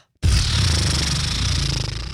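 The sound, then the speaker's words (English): A lip trill exhale like a horse breathing, with the lips fluttering as a deep breath is pushed out: a loud, steady, buzzing low flutter that starts abruptly and lasts about two seconds on its own. “Basically, it's just you breathe in really deep, and then as you exhale, you let your lips kind of like just move around.”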